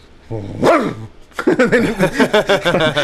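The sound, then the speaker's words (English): Barking from a 90-pound golden retriever: after a brief tonal vocal note, a rapid run of many short, punchy barks follows, fairly loud and evenly paced. “Loki, my 90-pound golden retriever is he's a bit of a barker,”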